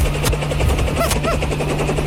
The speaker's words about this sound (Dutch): Dan landt hier een enorme helikopter.